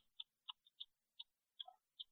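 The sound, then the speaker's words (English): Sharp mouth clicks made by a person for echolocation, about seven crisp, bright tongue clicks at irregular intervals, some louder and some softer, heard alone with no other sound. “I have two clicks. I have a loud click, which is like so, and I have a softer one, which gives me more detail”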